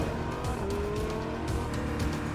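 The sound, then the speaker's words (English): A cartoon car speeding off in a chase: a brief, steady engine drone with a high revving whine riding on top and faint tire noise. “The car speeds off. It chases the supervillain.”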